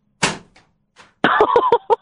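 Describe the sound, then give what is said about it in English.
A thrown object smacks into a studio door with one sharp, loud bang, a faint knock follows, and then a voice talks. “My intercom is broke, so I got to throw something in the door again.”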